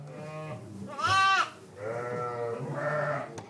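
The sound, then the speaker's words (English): Lambs bleat in a barn on a sheep dairy farm that supplies milk for Roquefort, in August. There are four wavering bleats, the second higher and louder, and no talk. “We're here at the Seguin farm in August, and there are lambs in the barn”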